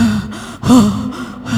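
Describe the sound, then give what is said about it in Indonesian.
A deep breath drawn in, an audible voiced gasp lasting under two seconds, swelling and easing with a brief break partway through. “Siap, tarik nafas dulu.”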